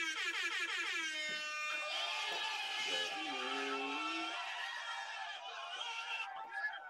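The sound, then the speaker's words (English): A blaring air horn sound effect, loud and continuous for about seven seconds, its bright, brassy harmonic tones shifting and layering throughout. “Hold up, air horns”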